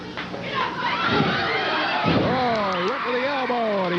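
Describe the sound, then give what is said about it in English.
A wrestler's body slam lands on the mat as a heavy, dull thud under continuous commentary talk and background crowd noise. “Barr with a body slam on Fulton.”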